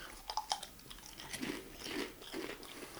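Beer cheese flavored chips crunch under chewing in a few faint, crisp bites that settle into softer mastication, with no talk.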